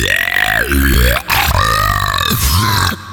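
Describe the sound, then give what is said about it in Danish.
A loud, long, deep belch lasting about three seconds, rumbling and strongly voiced, with a brief break near the middle before it carries on. “Hvis du vil have et ræb, du kan hænge dig i.”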